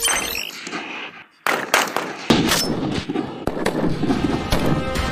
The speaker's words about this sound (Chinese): 但191式步枪性能硬核，弹道精准，能颠勺的手扣起扳机来，照样弹无虚发。